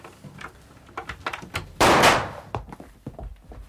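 A door being unlocked and opened by police in a dramatized scene. A few small clicks lead up to one loud, broad thudding swing of the door, which fades over half a second, followed by light shuffling.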